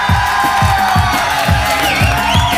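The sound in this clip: An audience cheering and whooping at a live music session in Maida Vale, London, a loud continuous roar of voices over a steady thumping beat.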